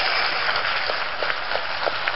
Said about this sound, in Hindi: जोरदार तालियां हम करेंगे।